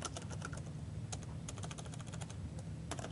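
Typing code on a computer keyboard, many faint quick key clicks in an uneven, continuous rhythm with occasional slightly louder taps, and no voices.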